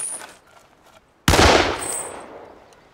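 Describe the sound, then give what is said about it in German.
A single loud gunshot cracks out after a near-silent stretch, its broad burst fading away in a long decaying tail. “Sie hätten wirklich nicht schießen müssen.”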